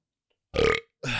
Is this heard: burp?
yes